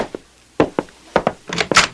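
A door being opened, heard as a few short, dull wooden thunks and clicks in quick succession.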